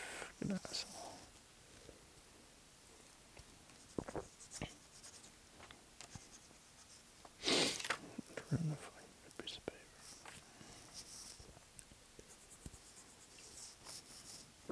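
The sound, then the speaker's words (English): Hand writing on paper: a pen or pencil scratches out many short, dry strokes in an irregular rhythm, faint and soft throughout. “Oh, whatever, five seconds left. I'm gonna stop writing.”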